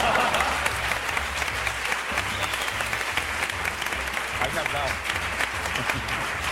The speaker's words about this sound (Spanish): Y un aplauso muy fuerte también para el primer novio de Alberto de Mónaco, Pepe Colubi.